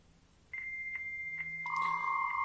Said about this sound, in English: Dial up internet.